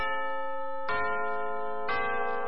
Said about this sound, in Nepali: समय सूचक अहिले बिहानको 9 बज्यो